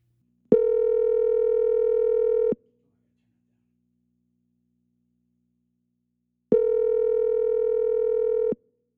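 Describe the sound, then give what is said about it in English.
Telephone tones sound while a call is dialed: two long, steady electronic tones, each about two seconds, separated by a silent gap of roughly four seconds. “Let's go ahead and dial that in. I don't even have the number. Do you have it? I do. You want to dial it?”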